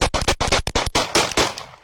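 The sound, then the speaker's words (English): Police officers open fire in a rapid volley of gunshots. Many loud, sharp reports come in quick, tightly packed succession with barely a gap between them. “All three officers opening fire, killing Dotson.”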